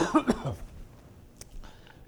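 Throat clearing from someone struggling with a frog in the throat: a couple of short, rough, gravelly bursts, fairly quiet, then a faint trailing rasp.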